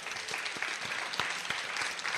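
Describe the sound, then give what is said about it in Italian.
Applause from an audience as a student from the Convitto Nazionale Umberto I is called forward at an event. Dense, steady clapping fills the short clip at an even level. “un applauso a Francesco”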